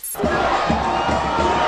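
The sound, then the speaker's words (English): Cheering fans on Bourbon Street in New Orleans after the Saints' Super Bowl win over the Colts. A loud crowd roar of whoops and shouts bursts in after a brief pause and holds steady to the end. “That's the sound of fans celebrating on New Orleans' famous Bourbon Street last night after their Saints' victory over the Colts in the Super Bowl.”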